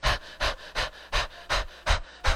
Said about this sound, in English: okay, I'm gonna breathe real fast just to kind of like slow things down. So can we all practice? Ready? And so you notice the emphasis on the exhale.